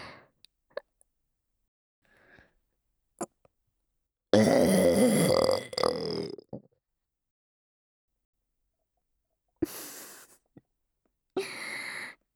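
A long, loud, rough burp lasting over a second, then a shorter one. Faint breaths and mouth clicks come before them, and a few brief breathy bursts follow later.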